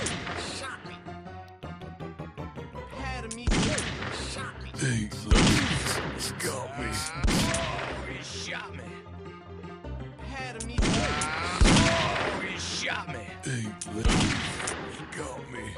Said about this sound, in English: He shot me. I see. He got me.